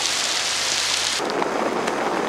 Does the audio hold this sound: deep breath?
no

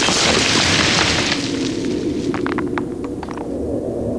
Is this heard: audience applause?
no

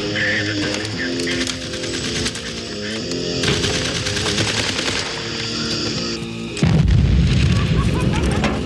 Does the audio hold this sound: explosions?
yes

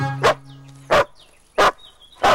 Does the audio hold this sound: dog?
yes

